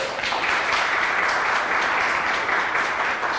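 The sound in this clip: An audience applauds to welcome a speaker, a dense, steady wash of many hands clapping that holds at an even level throughout.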